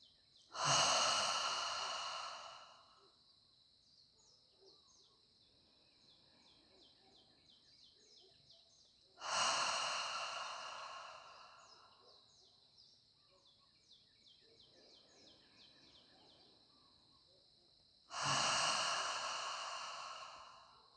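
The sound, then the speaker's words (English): Deep breathing exercise: three loud, long breaths pushed out through a wide-open mouth, evenly spaced about nine seconds apart, with quiet gaps between them and a faint, steady high chirping in the background. “Take 4 deeper inhalation breaths through your nose. And as you exhale, open your mouth wide and push the air out.”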